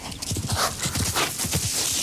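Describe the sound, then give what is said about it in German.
Horse hooves clip-clop in a steady, continuous rhythm, heard in the distance as a rider approaches a group of men about to set off; many hoof strikes run throughout, with no talk. “In der Ferne wird das Klappern von Pferdehufen hörbar, als die Männer aufbrechen wollen.”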